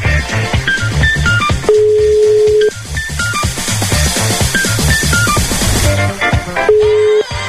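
A phone call ringing out unanswered toward voicemail: two long, steady ringback tones about five seconds apart sound over busy, rhythmic music with quick beeping tones.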